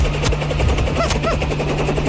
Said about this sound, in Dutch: Wat is dit? Dan landt hij een enorme helikopter.